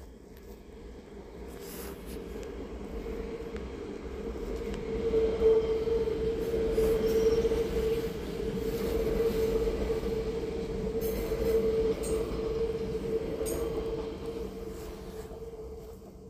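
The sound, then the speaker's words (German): A train arrives in Lindau on Lake Constance with a steady rumbling roll of wheels and carriages. The sound swells in the middle and then holds, with a faint high squeal from the wheels running through it and no talking. “Da kommt der Zug jetzt.”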